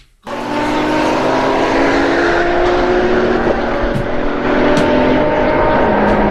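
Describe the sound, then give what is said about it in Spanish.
Engine of a Ferrari sports car: a loud, steady roar that starts abruptly and holds a sustained droning pitch, wavering slightly, for several seconds. “Ya se fue el Tuca en su Ferrari, güey.”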